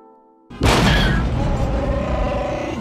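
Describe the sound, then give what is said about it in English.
An asteroid strikes a spaceship in a Star Wars film effect. A faint hum gives way to a sudden heavy boom, followed by a long, loud roaring rumble. “That wasn't a laser blast. Something hit us. Han, get up here. Come on, Chewie. Asteroids.”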